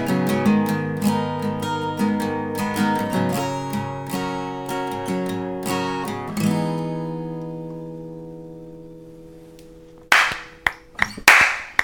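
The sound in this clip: Slow hand clapping, a few sharp, widely spaced claps arriving at the end after a stretch of music rings out and fades away.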